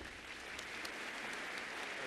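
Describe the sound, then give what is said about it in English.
An audience applauds to welcome a speaker onto the stage, a steady, dense wash of clapping from many hands that stays even and fairly quiet throughout. “let's give a warm welcome to Michael Franzese.”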